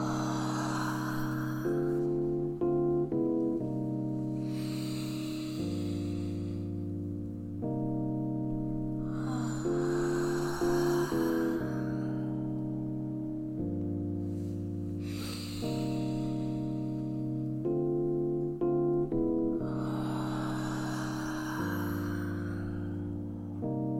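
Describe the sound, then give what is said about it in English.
Slow, deep breathing, inhaling and exhaling during a guided breathing session: a few long breathy swells rise and fall at an even pace over steady, sustained musical tones. “So breathe with me. Inhale. And exhale.”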